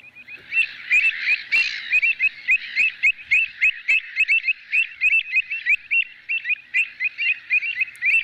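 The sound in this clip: Bird song from a played recording: many short, bright chirping notes in a steady, even rhythm, clear and fairly loud with no talking over them.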